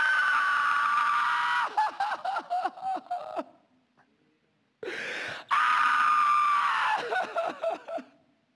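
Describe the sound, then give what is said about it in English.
A preacher voices a blood-curdling scream, imitating a man's agonized squeal, wail and moan after his eye socket is jabbed with a poker: loud, strained, wavering vocal cries in several bursts, a short silence, then a second long, loud outburst. “And Samson let out the most blood-curdling, God-awful squeal that you ever heard come out of a pitiful wail and moan. And Samson says, ah!”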